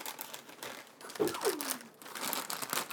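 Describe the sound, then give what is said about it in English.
A plastic bag crinkles and rustles as it is thrown into a trash can, making a series of brief, crackly bursts, with a voice heard in the middle. “Here, don't unwrap the bag. Go put it in the trash can.”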